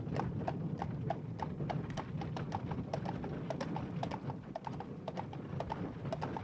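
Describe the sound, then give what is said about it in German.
Horses' hooves clip-clop as riders and a travelling carriage set off, many quick, sharp hoof beats in an uneven, overlapping rhythm, fairly faint and unbroken from start to end. “Man hatte sie gewaltsam in die Kutsche gezerrt. Zu Pferde, in Reisewagen brachen die Verbannten auf.”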